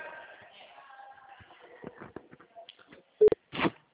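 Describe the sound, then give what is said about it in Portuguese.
A phone-call drop tone: two short, loud bursts close together at the end, following faint, muffled line noise. “perdão, caiu a ligação”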